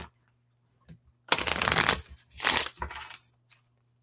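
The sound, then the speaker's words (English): Oracle cards being shuffled by hand in a few crisp, papery riffling bursts, the longest and loudest near the start, followed by shorter, softer shuffles and a brief final flick. “Okay, so what is it that this group of us here present now and who will be watching later needs to know? And I'm just going to pick one card.”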